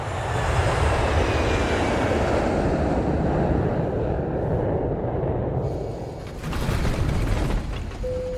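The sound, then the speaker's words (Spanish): An airplane taking off fills the cabin with a loud, broad rushing roar that stays steady, dips briefly near the end, then swells again. “Damas y caballeros, nos han autorizado a despegar.”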